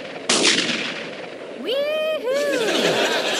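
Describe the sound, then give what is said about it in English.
A single loud, sharp gunshot bang cracks out, followed by a voice whooping with a rising and falling pitch. “Oh no, what was that? Somebody's shooting at us. Take cover, guys.”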